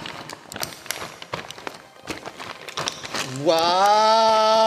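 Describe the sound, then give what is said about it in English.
Footsteps of two people pushing a motorbike through a tunnel opening, many quick irregular taps and scuffs at a moderate level, ending with a sustained tonal sound. “We'll have to walk the bike in from here. The pair push the vehicle in through the tunnel opening.”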